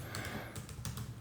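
Typing on a computer keyboard: a short, quick run of soft keystroke clicks over a steady low hum, faint overall, with no voices.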